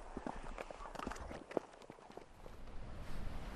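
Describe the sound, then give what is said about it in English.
Footsteps walking down a rugged coastal outcrop path toward a lighthouse on the Devon coast, an uneven run of many crunching steps at moderate level over a steady outdoor hiss. “Right, shall we walk on down to the lighthouse and finish our journey?”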